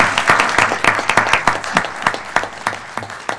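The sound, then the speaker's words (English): Applause at a Portland city council meeting honoring the Girl Scouts' 100th anniversary: many hands clap in a dense, lively patter that stays fairly loud and even throughout. “You know, we don't normally allow for applause, but I think today we're going to suspend the rules.”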